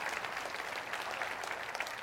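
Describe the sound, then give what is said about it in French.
Church audience applauding during a French-language service, a steady, dense patter of many hands clapping at an even, moderate level throughout. “Que ceux qui le croient avec moi disent amen et applaudissez-le à l'avance, c'est la promesse de Dieu.”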